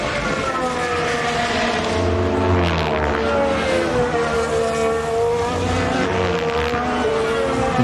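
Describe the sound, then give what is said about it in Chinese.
Two race cars near the end of a race: a loud, continuous high engine whine whose pitch sweeps up and down as the cars pass, with a rough low roar beneath and no talking. “安东尼内利也是在追赶维斯塔潘，这两台赛车的话，这个比赛末端的这个速度还是非常棒的。”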